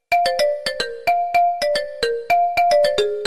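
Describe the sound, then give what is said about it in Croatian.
An incoming-call ringtone on a phone: a bright electronic melody of many quick plucked notes, repeating a short phrase about once a second, loud and alone. “imam neki poziv, sad moram se javiti na ovo”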